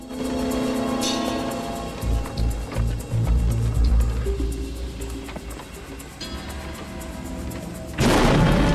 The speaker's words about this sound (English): Behind him, the bridge explodes in a ball of flame and plummets down into the abyss.